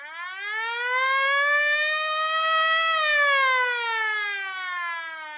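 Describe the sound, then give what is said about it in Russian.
A hotel fire alarm siren wails in one long cycle, rising in pitch for about three seconds and then falling again. The tone is loud and clear, with no other sound. “Снова взвыла сирена.”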